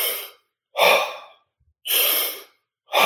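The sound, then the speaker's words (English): Deep, forceful breaths from a breathing exercise, one of a set of thirty taken before a breath hold. A few loud, breathy inhale and exhale rushes come in a steady rhythm, separated by short silences, with no talk. “So yes, you do 30 breaths like this.”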